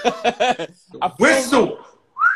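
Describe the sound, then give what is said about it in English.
A person whistles a short note that rises in pitch. It comes right after a stretch of talking and a brief pause. “The whistle don't always come out.”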